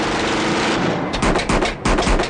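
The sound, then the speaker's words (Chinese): Rapid gunfire from masked gunmen: a rough, noisy rumble gives way to many sharp, closely spaced shots in two quick volleys, loud and cracking. “一阵枪声响过”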